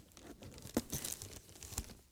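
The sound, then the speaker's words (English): Gift wrapping paper being torn open, a faint crinkling rustle broken by a few sharp rips. “Unwrap it, right? Yeah, you can unwrap a gift.”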